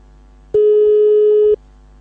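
A telephone line tone sounds as a call is placed to a repair service about a broken television: a single steady, mid-pitched buzzy tone about one second long, starting and stopping abruptly over a faint low background.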